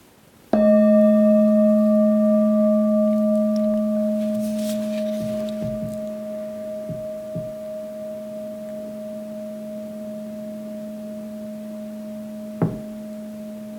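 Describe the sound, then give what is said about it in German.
A singing bowl, struck once to open a meditation, rings out in a warm, sustained tone with layered overtones that fade very slowly. A brief soft tap sounds near the end. “Lass dich nun vom Klang der Klangschale in die Meditation führen.”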